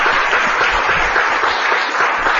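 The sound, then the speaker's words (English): Audience applause for marathon organizers, a dense, steady wash of clapping that holds at an even level from start to finish with no gaps. “So give them a round of applause.”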